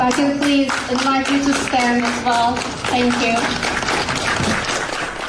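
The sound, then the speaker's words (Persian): Applause from an audience honouring Iranian filmmaker Nasser Taghvaei: dense, steady clapping runs through the whole stretch, with voices rising above it. “اجازه میخوام که به افتخار ایشون برخیزم و دست بزنم.”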